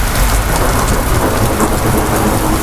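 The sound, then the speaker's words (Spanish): A thunderstorm pours heavy rain onto a city street in Santiago, making a loud, steady, hissing roar without a break, with a low rumble underneath. “Ya se escuchan las tormentas en muchos puntos de la comunidad. Este es el sonido de la calle en Santiago”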